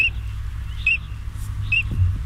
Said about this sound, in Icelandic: fugl dagsins í dag urtönd, heyrum aftur hljóði